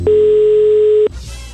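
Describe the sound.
A telephone tone sounds as a call is placed. A single steady, loud tone holds for about a second, then cuts off abruptly into faint noise.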